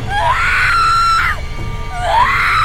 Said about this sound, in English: screamed again, like she has so many times before.